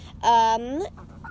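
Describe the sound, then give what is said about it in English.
One of two chickens eating gives a single drawn-out, nasal cluck that bends in pitch, followed by a few soft, faint clucks. “our two chickens that are eating right now, Peanut and Coco”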